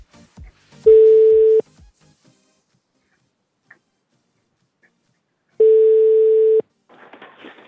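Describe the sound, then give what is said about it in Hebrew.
A telephone call is dialled, with two long, steady mid-pitched line tones separated by a silent pause. A few faint clicks come before the first tone and some soft noise follows the second. “ולכן אנחנו נעשה עכשיו ניסיון נוסף לחייג עליו בשידור”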